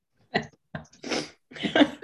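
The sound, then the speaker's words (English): Nose blowing that sounds much like a sneeze, heard as a few short, breathy, noisy bursts over about two seconds with brief gaps between them. “Oh, I didn't sneeze. I was just blowing my nose. Sounded like a sneeze, though.”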